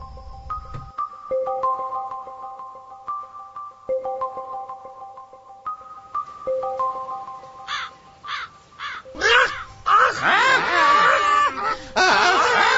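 Crows caw harshly in short, scattered bursts that thicken into a loud, dense, overlapping clamor, following an opening stretch of slow, sustained melodic tones played alone.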